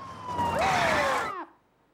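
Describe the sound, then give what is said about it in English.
A police car siren gives a brief wailing tone that dips and sweeps before cutting off abruptly, heard over a steady wash of background noise. “They pull over for a police car.”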